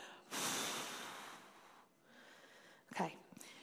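A long, breathy exhale during a guided breathing exercise, steady and soft at first and then fading. A short, sharp sniff-like intake of air follows near the end.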